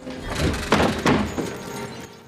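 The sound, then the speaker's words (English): Window shutters fly open and a sash window slides up, heard as a few dull knocking thuds within a low, scraping rumble that fades out at the end. “The shutters fly open and the sash slides up.”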